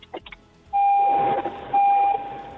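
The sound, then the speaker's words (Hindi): A car's door-open warning chime heard over a caller's phone line to a radio show: two long, steady electronic tones with a short gap between them, loud above a hissy background. “मुझे ऐसा क्यों लग रहा है आपने अपनी गाड़ी का दरवाजा खोला है और हम सभी को टिंग टोंग सुनाई दे रहा है।”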